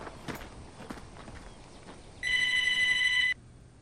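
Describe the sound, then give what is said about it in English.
A telephone rings inside a store in a single loud burst lasting about a second, preceded by faint scattered taps. “Inside the store, the phone rings.”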